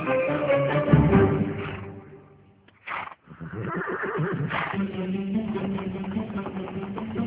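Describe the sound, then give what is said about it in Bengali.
A horse pulling a carriage along a stone road neighs and whinnies in loud, rough bursts, breaking off briefly in the middle before resuming. “চাকার আওয়াজ এবং পাথরের রাস্তার উপর দিয়ে ঘোড়া নালের শব্দ ভেসে এল।”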